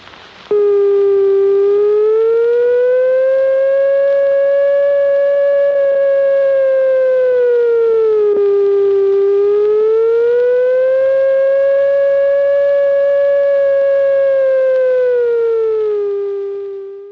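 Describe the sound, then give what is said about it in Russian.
A Leningrad wartime air raid siren blares as a single loud, sustained wailing tone that slowly dips and rises in pitch over two long cycles, then tapers off at the end, heard alone with no voices. “Говорит штаб местной противовоздушной обороны. Воздушная тревога! Воздушная тревога!”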